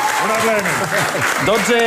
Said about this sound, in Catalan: No aplaudim més, no aplaudim més, no aplaudim més.